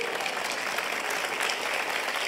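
Applause from a church audience during a sermon, a steady wash of many hands clapping at moderate volume that runs unbroken through the whole stretch.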